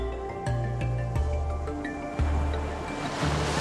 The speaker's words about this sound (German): Du hörst die Wellen im Hintergrund rauschen.